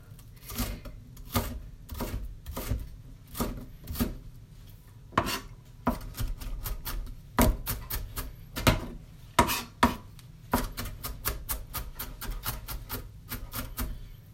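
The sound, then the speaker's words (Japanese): A knife finely mincing an onion makes many sharp, rhythmic chops in a steady run with slight irregular pauses, with no talking. “12分の間に玉ねぎが1個切れるだろうかっていう感じです”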